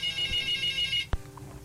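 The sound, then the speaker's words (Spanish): A telephone ringtone for an incoming call plays as a steady, bright electronic tone for about a second. It cuts off sharply with a single click. “Vamos a recibir esa llamada.”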